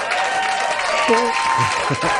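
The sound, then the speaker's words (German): Audience applause at a children's mini disco event, a steady wash of clapping throughout with voices talking over it. “Dann kriegst du hier noch einen Applaus.”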